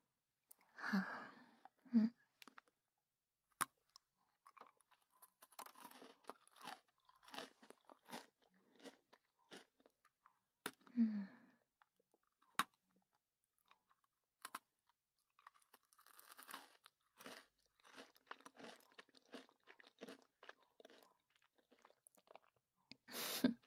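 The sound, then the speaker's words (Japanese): Faint crunching and chewing of leftover food while eating, with irregular bites and crunches scattered through the stretch and a few louder crunches standing out against near silence. “僕も食べようっと。”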